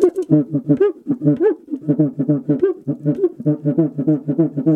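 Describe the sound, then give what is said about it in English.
Cuíca friction drum, a small drum whose stick is attached to its head, played by rubbing the stick with a wet cloth: many rapid, rhythmic squeaky hooting tones with swooping pitch, heard alone. “And this one is the most interesting one because this is a small drum that has a stick in the middle, and the stick is attached to the head of the drum. And it's played by producing friction on the stick,”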